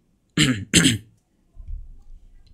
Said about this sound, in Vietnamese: Mình đang đọc thì nó hay bị ho ấy, nên có gì anh em thông cảm cho mình nhé.